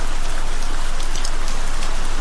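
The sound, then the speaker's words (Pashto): Heavy rain pours down in a dense, loud, even hiss of countless drops that holds steady throughout. “باران تیز شو، داسې شرشوری شو لکه ناوې چې له اسمان را خوشې شي.”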